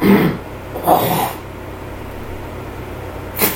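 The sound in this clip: Throat clearing from a man, a rough, phlegmy burst at the start followed by a couple of shorter, quieter rasps over low background hiss.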